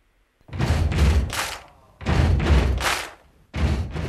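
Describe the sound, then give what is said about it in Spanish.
Basketball bouncing during free throws at the free-throw line, taken by a professional club player. The thuds come in three loud, dense bursts, each holding a few heavy thumps, with no talking. “El pasado martes dejamos al héroe del Club Baloncesto Granada, José Antonio Paraíso, en la línea de personal. Y esta semana le hacemos lanzar los 10 tiros libres de Al Rebote.”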